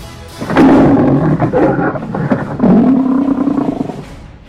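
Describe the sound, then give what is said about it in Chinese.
A provoked male lion, leader of a pride, gives loud, deep, rumbling roars: two long growling bursts in close succession, each swelling and trailing off. “被挑衅的狮子王哈利克发出一声更响亮的怒吼”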